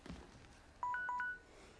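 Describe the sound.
Keypad tones from a mobile phone being dialed: a quick run of a few short electronic beeps at slightly different pitches, clear against faint background noise, with no voices.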